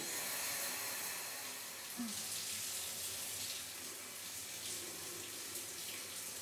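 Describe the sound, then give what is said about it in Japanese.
Hot water being poured over someone in a bath makes a soft, continuous splashing rush that stays faint and even from start to finish. “お湯かけるわよ。”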